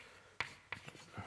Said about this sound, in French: Donc, j'écris NESS